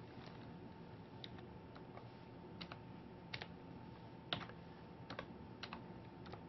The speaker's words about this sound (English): Oh my gosh, what am I going to type? Because I can't type today, so it could be anything.